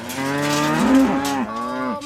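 Cattle mooing as they wait to be driven out to pasture by a farmer: a loud, drawn-out lowing with wavering pitch, heard on its own.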